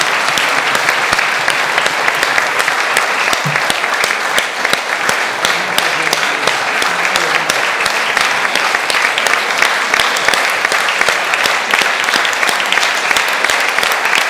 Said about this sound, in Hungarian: Külön nagy tapsot.